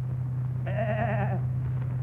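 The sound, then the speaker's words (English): A goat bleats once in a wavering, nasal call lasting under a second. The animal is one found in a backyard, and a steady low hum runs underneath throughout. “Success. I got a goat. Found it in my backyard this morning.”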